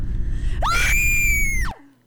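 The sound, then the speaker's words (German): A woman screams in terror: a single loud, piercing cry that rises sharply, holds a high, steady pitch for about a second, then drops and cuts off, leaving a low rumble underneath. “Ihr eigener Schrei war das Letzte, was Annika wahrnahm, bevor ihr Bewusstsein vollends in der Dunkelheit versank.”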